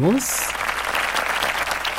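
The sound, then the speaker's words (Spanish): Applause welcomes a radio host at the start of a show. A short rising synthetic tone comes first, then dense, lively clapping holds at an even, fairly loud level. “Comenzamos con esa bienvenida, con esos aplausos que los comparto con todos ustedes.”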